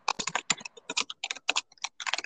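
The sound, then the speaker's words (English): Rapid typing of a search on a computer keyboard, with many crisp keystroke clicks in quick, uneven bursts separated by short pauses, alone without any talk. “Don't type that into Google.”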